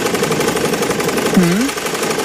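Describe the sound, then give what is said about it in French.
Mechanical weaving loom running at a site in the Loire department, a dense, steady rattling clatter with a rapid rhythmic texture; a short hummed voice sounds briefly over it. “Ça, c'est une machine à tisser.”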